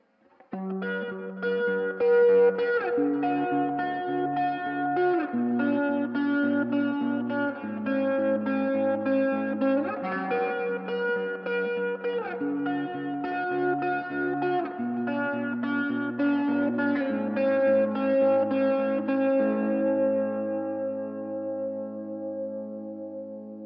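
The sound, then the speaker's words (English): Electric guitar played through a rig with three effects in front of the amp and modulation effects in the amp's effects loop, giving sustained, layered notes and chords with chorus-like shimmer and echo. Steady and loud throughout, thinning out at the end. “Here's what this rig would sound like if I played it as normal, throwing the first three effects into the front of the amp and the modulation effects into the loop.”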